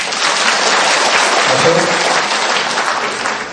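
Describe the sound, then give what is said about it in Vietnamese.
Audience applause at a Buddhist dharma talk after a call to clap: dense, loud, steady clapping from many hands that holds level through the whole stretch with no clear break. “Giơ tay lên đó, quý vị vỗ tay đi.”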